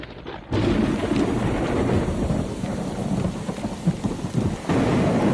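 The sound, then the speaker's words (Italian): Thunder and heavy rain from a winter-night thunderstorm make a dense, steady roar with low rumbling throughout. A brief quieter moment comes before the roar and a short dip comes near the end. “una di quelle notti d'inverno, piene di lampi e tuoni.”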